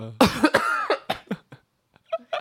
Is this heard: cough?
yes